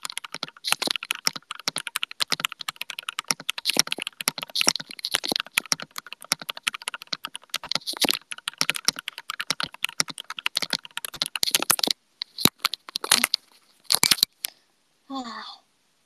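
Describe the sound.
Rapid typing on a computer keyboard that was ordered without a tape mod: many dense, clacky keystrokes in quick bursts, thinning to a few scattered, separate clicks at the end.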